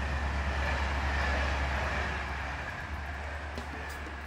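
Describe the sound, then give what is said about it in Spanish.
A night train from Limoges to Paris running at speed through the Loire Valley at about 161 km/h, a steady rumbling roar over a deep low hum that eases slightly toward the end. “El tren nocturno de Limoges a París recorre con rapidez el Valle de Loira a 161 kilómetros por hora.”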